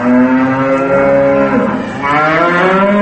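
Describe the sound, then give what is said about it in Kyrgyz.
Bulls bellowing near farm barns: long, deep, harmonic lowing calls that run almost unbroken, briefly dipping before one more drawn-out bellow. “Ар кайсы жылдары курулган сарайларга жакындай бергенде мөөрөгөн букалардын үнү болду.”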